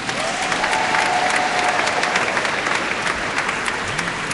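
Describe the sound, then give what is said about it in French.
Dense, sustained applause from a crowd at a church gathering, an even wash of clapping that holds at a constant level throughout. “et il sait pourquoi cet applaudissement”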